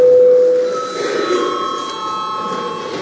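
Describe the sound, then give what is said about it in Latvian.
An electric bell sounds in a parliamentary chamber to call the session to order, a sustained bright ringing tone that is loudest at the start and carries on slightly softer for about three seconds. “lūdzu zvanu.”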